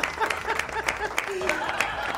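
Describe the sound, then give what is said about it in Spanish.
Applause for a guest during a live online session: light, scattered clapping in regular bursts runs underneath a person talking. “Aplauso enorme para José, que nos está mirando espontáneamente.”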